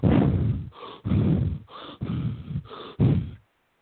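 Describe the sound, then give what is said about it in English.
A person imitates the rapid deep breaths of the Wim Hof breathing technique, a quick run of several forceful, breathy inhales and exhales in alternation before falling silent. “he'll do these rapid deep breaths that sound a little like,”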